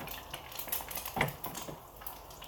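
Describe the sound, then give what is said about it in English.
Utensils clatter against a pan as eggs cook in a smoking pan, with a few light scrapes and one sharper clink near the middle. “We're gonna do a second egg. Maybe that'll turn out prettier.”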